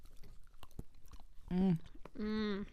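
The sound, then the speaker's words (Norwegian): Chewing and biting a piece of chocolate. Soft, crunchy clicks come first, then two brief bursts of voice near the end. “Så skal dere ta bit nummer 1 med sjokolade. Spis. Spis. Ok, jeg spiser.”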